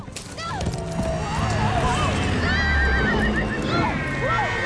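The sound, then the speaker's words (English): A horse whinnies repeatedly over rapid, continuous hoofbeats while being ridden fast through a forest. Voices can be heard over the loud, busy sound. “leaves smacking her in the face as she bounces on the horse's back.”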